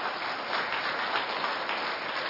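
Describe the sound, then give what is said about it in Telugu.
Applause from a group of children: a dense, continuous patter of many small hands clapping at steady loudness throughout, with no voices over it. “చప్పట్లు కొట్టండి మీకోసం మీరు.”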